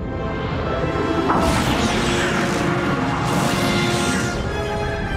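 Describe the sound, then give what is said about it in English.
A warhead strikes a starship's forward shields: a dense, loud roaring crash of noise that holds for several seconds, swelling briefly now and then. “Two warheads are about to emerge, adjusting course. Full power to the forward shields. Impact in 5, 4, 3, 2.”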